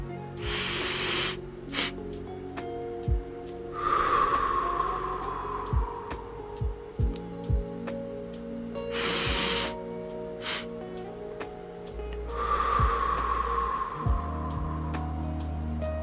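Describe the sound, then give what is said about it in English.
Deep breaths in and out through the mouth, heard as a few slow, soft, breathy rushes spaced several seconds apart over a steady low background tone. “And then when you breathe out of your mouth. So on the count of three, let's take a breath.”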